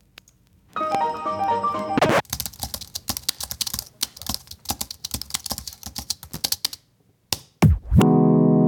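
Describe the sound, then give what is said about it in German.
Hard, rapid typing on a computer keyboard, recorded and edited into an assembled sound piece: many loud, sharp key clacks in quick irregular bursts. A short sustained electronic tone comes before the typing, and another tone follows at the end. “einfach aufgenommen, wie ich auf meiner Tastatur rumgehauen habe und das eingebaut”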